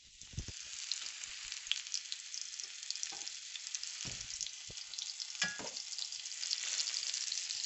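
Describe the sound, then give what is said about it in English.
Spiced, flour-dusted lamb kofta sizzle in hot oil, a steady hissing fry punctuated by a few louder spits and pops that hold constant throughout. “Put all the spices in it, dusted them with a little bit of flour, and now I'm going to fry them in some hot oil.”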